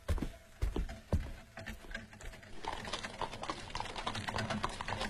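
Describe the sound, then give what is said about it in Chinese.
Faint hoofbeats of a horse-drawn carriage, with a few sharp, irregular knocks at first that give way to a quieter, continuous patter. “陈廷敬的马车快进昆明”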